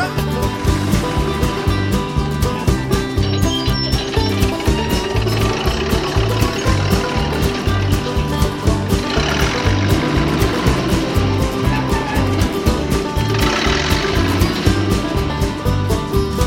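A farm tractor engine runs loud and continuous with a steady, rhythmic low throb and a constant mechanical rattle.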